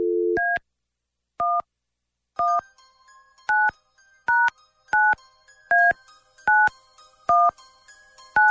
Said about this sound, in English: Okay, here we go. Dialing at random.